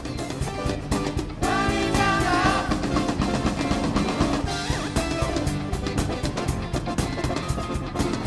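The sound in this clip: Rock music from a tribute band plays continuously at a steady, loud level, with dense layered instruments and driving percussion throughout.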